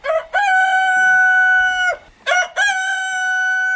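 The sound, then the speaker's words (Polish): A village rooster crowing loudly and clearly. There are two long crows, each with a sharp rise into a sustained, strongly harmonic call, with a short pause between them. “Uciekinierzy z miasta donieśli na koguta, bo piał o 3 nad ranem.”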